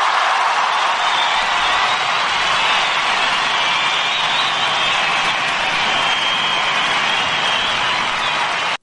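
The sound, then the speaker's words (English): Audience applause greets a guest stunt coordinator, a dense, steady wash of clapping that holds at an even loudness for about nine seconds with no voices over it. “Give that guy a round of applause, Mr. Simon Crane.”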